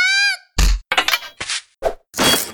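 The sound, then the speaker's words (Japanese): A hard punch to a man from the side lands as a heavy, low thwack right after a short vocal shout, followed by several more sharp bursts and grunting sounds. “状況についていけてなかった男を横から思いっきりぶん殴る。”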